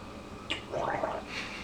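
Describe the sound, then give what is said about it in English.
Gargling a ginger and lemon drink: a brief, soft bubbling gurgle in the throat, preceded by a small click and followed by a faint hiss, all fairly quiet. “Gargle with it a little bit. I'm not going to gargle it. Gargle.”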